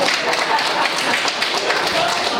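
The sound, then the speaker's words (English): A church audience applauds after a homily, with dense, steady clapping that fills the whole stretch at an even, fairly loud level. “Well, I never get applause for a homily. That's pretty good.”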